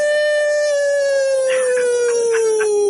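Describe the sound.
A human voice imitating a dog's howl: one long, loud, sustained tonal howl that slowly falls in pitch, with no other sounds.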